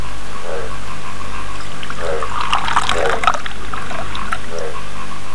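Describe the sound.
Liquid being poured in one steady, continuous stream, a loud watery splashing and trickling that holds at an even level from start to finish.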